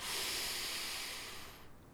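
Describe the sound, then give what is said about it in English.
Slow, deep breathing in cold Arctic air: one long, soft, airy hiss of breath, quiet throughout, that tapers and fades out near the end. “Breathe in, and breathe out.”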